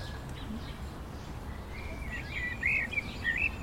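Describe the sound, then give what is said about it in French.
A common blackbird sings in faint, fluting phrases that emerge in the second half over a constant low rumbling background. “C'est le merle, ça. Il y a des merles là-bas, oui.”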